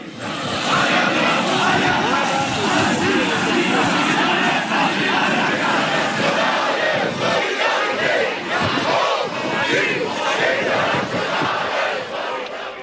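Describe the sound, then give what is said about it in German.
Protest crowd in Erfurt: a dense mass of voices shouts and chants loudly and continuously throughout, with no pauses. “Das war ein Rückblick auf die widersetzten Proteste in Erfurt.”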